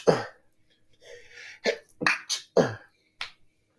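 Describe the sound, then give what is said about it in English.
A stifled sneeze, heard as a few sharp, breathy bursts separated by short gaps, with a quieter murmur between them. “That was a sneeze. Yeah, it was. So... I didn't want to sneeze out loud.”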